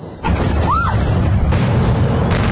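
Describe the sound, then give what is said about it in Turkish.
A missile depot struck in Kyiv explodes: a sudden heavy boom swells into a sustained, loud roar and rumble that lasts to the end, with a brief whistling tone rising then falling early on. “En görünür patlamalar Kiev'de yaşandı. Ukrayna'nın başkentinde füze deposu böyle isabet aldı.”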